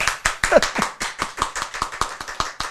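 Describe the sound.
Hands clap many times in a quick, fairly steady rhythm of sharp, crisp slaps with no talk.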